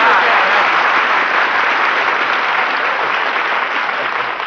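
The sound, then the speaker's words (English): Sustained audience applause for Jack Benny, a dense, even wash of clapping that holds steady and eases off slightly at the end. “You know, applause is food for an actor, so thanks for the lunch.”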